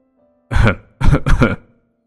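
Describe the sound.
A man coughs and clears his throat in three rough, throaty bursts: one short burst, then two that run together. The sound is loud, with no talk around it.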